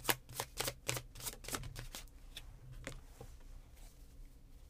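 Playing cards shuffled and drawn, a few crisp riffling bursts at the start giving way to softer rustling and taps, faint throughout.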